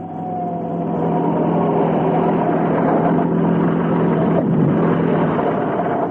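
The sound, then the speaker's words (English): Steady engine hum and road rumble from a large black limousine driving along a street, holding at an even, moderately loud level after a brief swell at the start. “And along that same street came a large black limousine. It stopped at the entrance.”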